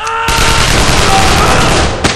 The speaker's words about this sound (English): Shoot these idiot guards!